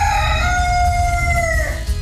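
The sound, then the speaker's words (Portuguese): A rooster crows in one long, loud harmonic call that holds steady, slides slightly lower toward the end, then breaks off over a low background rumble. “Ô, Potência, venha dar um bom dia. Potência, nosso galo, ele chama-se Potência, o nome dele. Potência, vem cá. Dá bom dia pro povo aí,”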